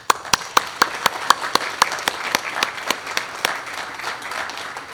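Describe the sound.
Applause welcoming a minister at a church service, a run of many sharp, evenly spaced claps that keeps a quick steady beat, then blurs into looser, softer clapping.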